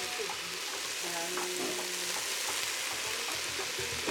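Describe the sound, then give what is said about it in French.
Garlic sizzles in a frying pan for rougail sauce, a steady hissing fry with small crackles and occasional stirring scrapes throughout. “Donc là, tu viens d'ajouter l'ail, hein, c'est oui, ça.”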